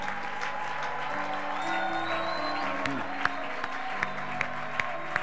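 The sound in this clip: A church audience acclaiming God with applause, a steady wash of crowd noise and sustained voiced tones, with sharp, regularly spaced claps standing out toward the end.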